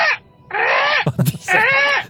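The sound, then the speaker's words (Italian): A human voice imitating a tired seagull: two drawn-out, nasal, wailing cries separated by a short breathy, crackly sound, loud and alone. “Il corvo? No, non lo so, forse un gabbiano. Il gabbiano stanco. Stanco. Ah, è il gabbiano ma stanco.”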